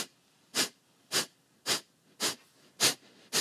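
Six forceful, sharp exhalations in an active-exhale, passive-inhale breathing exercise, each a short breathy hiss burst, evenly spaced and steady in rhythm, with quiet pauses between them.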